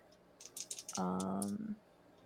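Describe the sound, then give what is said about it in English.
A few quick, faint clicks on a computer, followed by a short, buzzy electronic tone that holds briefly and then stops. “Which is still up, so I'll just click the button.”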